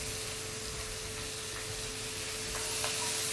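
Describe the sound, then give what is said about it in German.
Vegetables, mushrooms and bacon roast in a pan, a faint, steady sizzle and hiss that stays even throughout with no talk over it. “Unser Gemüse ist jetzt goldbraun angeröstet, so dass wir unsere Pilz wie auch den Speck können dazugeben.”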